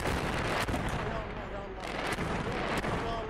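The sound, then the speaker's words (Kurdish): Explosions from bombing in Gaza form a dense, continuous roar of blasts and rumble, with a few sharper bursts standing out from the steady wall of noise. “گوێ بگرن گوێتان لەم دەنگەیە”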